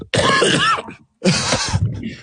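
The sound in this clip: A person coughs and clears their throat in two rough, loud bursts separated by a short silent gap, the second burst trailing off more raggedly.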